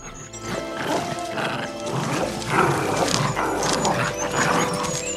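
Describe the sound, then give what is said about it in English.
Growls and snarls of several wolf cubs tugging together on a bone in play, a dense, busy tangle of rough animal sounds that grows louder partway through. “No less than 5 wolf cubs take hold of the bone in their mouths, and a tug of war begins.”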